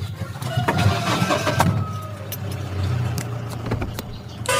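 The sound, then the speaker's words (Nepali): A jeep engine starts and runs in a village, a steady low rumble with a few sharp clicks and rattles on top. “अब zip start गर”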